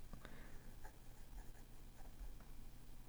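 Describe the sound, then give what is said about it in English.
A pen faintly scratches and taps as someone writes notes by hand, with a few light strokes over a steady low hum and no talking. “And, I'm just writing this stuff down. Sorry about this, guys. So I remember to put it on the show notes.”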